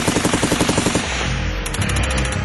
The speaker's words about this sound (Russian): Снова шквал автоматной стрельбы, потом гулко подствольный гранатомет.